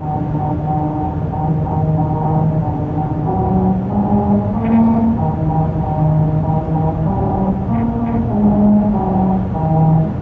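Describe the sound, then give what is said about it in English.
Car tyres roll over grooves cut into a musical stretch of highway pavement in Lancaster, California, made for a Honda promotion. The grooves sing out a droning tune of sustained tones that step up and down in pitch over a steady road rumble. “That's the sound of a musical stretch of highway in Lancaster, California. As part of a promotion for Honda, special grooves were cut into the pavement that cause these notes to ring out as you drive over them.”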